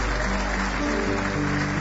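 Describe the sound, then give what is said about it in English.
An audience clapping hands in praise during a church service, a dense, continuous round of applause at an even loudness. “Give Him one more hand clap of praise.”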